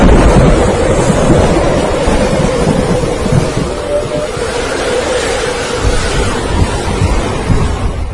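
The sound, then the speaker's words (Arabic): Thunder rolls as a loud, continuous, low rumble mixed with a wind-like roar. It swells and eases unevenly throughout, with no voices. “بعد كده حسيت بصوت برق ورعد.”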